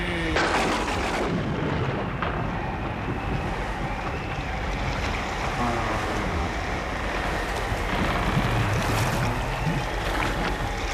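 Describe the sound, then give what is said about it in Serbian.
Stormy wind and crashing waves roar together in a dense, unbroken wash of noise that stays loud and steady from start to finish, with no voices. “Oluja! Bura! Udrite, vetrovi!”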